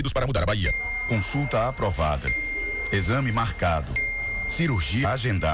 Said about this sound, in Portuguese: Esse é o som da fila andando.